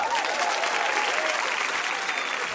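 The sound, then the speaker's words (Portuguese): An audience applauds to welcome a left-footed veteran of the first women's World Cup, held in China in 1988. Dense, even clapping from many people continues steadily, then cuts off abruptly at the end. “Vamos começar aplaudindo uma canhotinha competente, veterana da primeira Copa Mundial de Mulheres realizada na China em 1988.”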